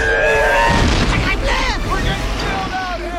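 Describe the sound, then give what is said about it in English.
A heavy boom with a deep, sustained rumble as underwater sub pods crash into each other and explode while a monster attacks them, with a voice speaking over the blast. “The monster attacks the sub pods, which crash into each other and explode.”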